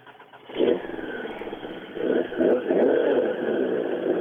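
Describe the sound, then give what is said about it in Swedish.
A Ford Escort RS 1800 rally car's engine revs, a mid-pitched roar that jumps up after a quiet start, then surges again in a few waves, loud and without voices. “nu sjunger det skönt under huven här när de varvar till sin Ford Escort RS 1800.”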